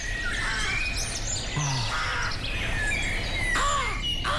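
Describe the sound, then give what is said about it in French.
Forest ambience from woodland near Bern: crows cawing and smaller birds chirping over a steady background hiss, with no talk. “J'aime bien la forêt bernoise, on peut la remettre.”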